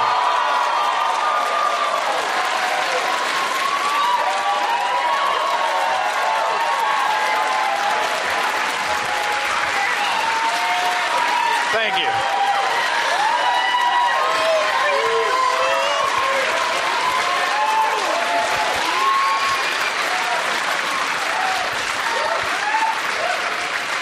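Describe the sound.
Studio audience applauding and cheering to welcome guests: dense, loud, sustained clapping runs throughout, with whoops and shouted voices rising over it.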